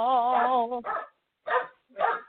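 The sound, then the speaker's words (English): A dog howls along while people sing a gospel-style chorus. One long, wavering, tonal howl is followed by a few short, yelping bursts separated by brief silences. “The dog is liking your singing. We hear him in the background singing with you.”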